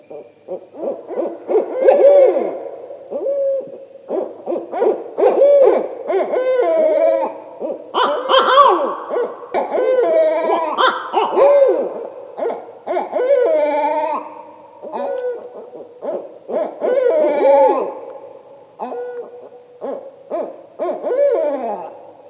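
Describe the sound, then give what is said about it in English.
A male and a female owl of a mated pair give loud hoo-wah contact calls, many hooting phrases repeated with short gaps between them. The calls sound alone against a silent background. “Then there's a male giving the loud hoo-wah call, which may serve as a contact call between a mated pair. And then a female giving the same contact call.”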